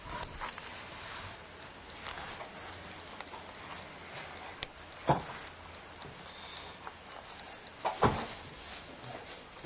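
A door swings shut by itself, giving two soft thuds a few seconds apart over a steady background hiss.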